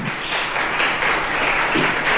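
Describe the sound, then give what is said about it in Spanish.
A church audience applauds loudly during a Spanish-language sermon on Jesus raising the dead: thick, continuous clapping from many people at a steady level, with no one speaking over it. “Un aplauso poderoso a Jesús.”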